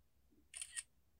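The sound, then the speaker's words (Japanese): A camera shutter fires once as a photo is taken in a very small recording room, a brief, bright mechanical click in two quick parts, quiet against a faint low hum. “このめちゃめちゃ狭い録音のお部屋で写真を撮ります。”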